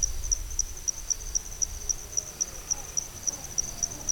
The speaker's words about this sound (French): Donc, on entend une biophonie qui est vraiment constituée quasi exclusivement d'insectes.